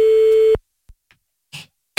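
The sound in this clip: A telephone call tone with no answer: a single steady electronic beep lasts about half a second, then silence broken only by a few faint clicks and a brief soft rustle.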